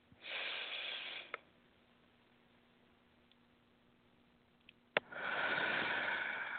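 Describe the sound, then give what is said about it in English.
A person taking a deep breath during a chakra-balancing exercise: a long, airy rush of breath, a quiet pause with a faint click, then another sustained breath sound. “So let's take this deep breath.”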